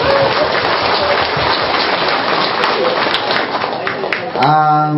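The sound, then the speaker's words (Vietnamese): Audience applause at a temple gathering: dense, rain-like clapping runs for about four seconds before a voice begins speaking. “Vỗ tay đi.”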